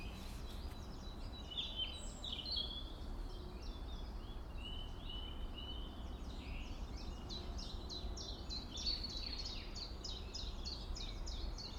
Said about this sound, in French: Là, il y a des mésanges à longue queue. La petite trille qu'on entend à peine là.